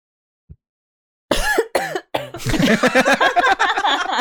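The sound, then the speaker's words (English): Coughing from spit caught in the throat. After a faint click and a second of near silence, a few loud, harsh, voiced coughs come, then many quicker hacking bursts follow in a rapid run. “I literally just breathed into it. Well, and I was like, piece of spit got stuck in my throat.”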